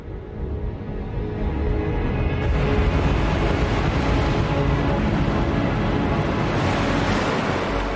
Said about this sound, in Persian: کشتی سلطنتی بریتانیا به سمت جبر و طارق در حرکت است.